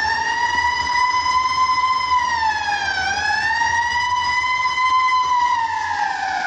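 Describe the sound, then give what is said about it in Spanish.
An approaching ambulance siren in a 1972 film scene: a loud, harmonically rich electronic wail that holds high, dips in pitch once near the middle, then climbs back and sustains, with a low engine rumble beneath. “La ambulancia se acerca.”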